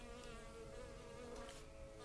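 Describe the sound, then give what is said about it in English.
A honeybee buzzes as it flies around a person's head, giving a faint, steady, continuous drone with a bright, even hum throughout. “There's quite literally a honeybee.”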